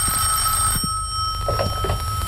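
A telephone rings with an incoming call, a steady high bell tone sounding throughout. Faint knocks and shuffles sit underneath, and no one speaks.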